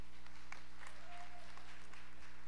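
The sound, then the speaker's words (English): Soft, steady applause from an audience forms an even, continuous patter of many hands clapping at a low level over a faint low hum. “I don't know why you clapped, but I'm just teasing.”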